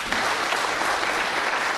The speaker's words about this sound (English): Let's clap it up.